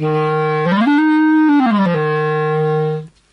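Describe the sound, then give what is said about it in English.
A wooden B-flat clarinet plays smooth, sustained reedy notes: a low tone slides up to a higher one, holds, then returns to the low note before stopping, leaving silence. “So what I have here is I have a normal B-flat clarinet. It's about a metre long, made of wood, and it sounds like this when you play it.”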